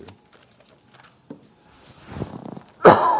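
Someone coughing to clear a frog in the throat during a sermon: faint thumps and shuffles, then one loud, rough burst near the end.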